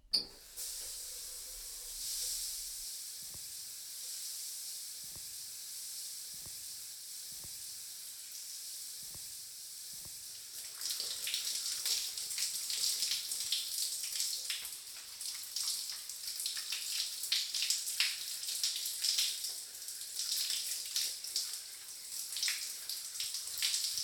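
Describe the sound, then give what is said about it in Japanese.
Water rinsing treatment out of hair, rising after a quieter stretch that holds a few soft taps. It becomes a steady hissing spray with light splashing, low in level throughout. “トリートメント流しちゃいますね。”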